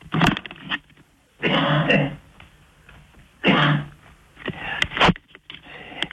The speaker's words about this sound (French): vous videz la gorge déjà, parce que j'ai entendu que vous avez beaucoup toussé